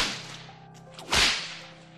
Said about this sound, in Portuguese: Então tentaram caminhar, mas faltava força. E então, mais chicote.